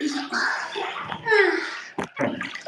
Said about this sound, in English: I'm gonna wash my face and then get out.